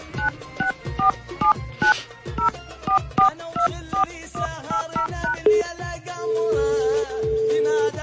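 Telephone number being dialed on a keypad: many quick, bright touch-tone beeps in an uneven rhythm, followed by a steady, sustained ringback tone.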